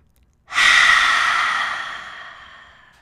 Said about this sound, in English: take the deepest inhalation, open your mouth, and let it go.